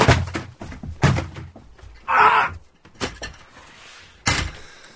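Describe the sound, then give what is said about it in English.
A fire extinguisher is knocked about and broken: a few heavy knocks and thuds, with a brief burst of rushing noise in the middle and a final hard thump. “You're going to have to pay for that. I don't... I did actually break the fire extinguisher.”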